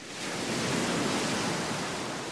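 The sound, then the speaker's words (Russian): Sea waves breaking against steep cliffs on the Galician coast: a soft, steady rushing wash of surf that swells slightly and holds on without a break. “Там, где волны разбиваются о крутые скалы, в Галисии”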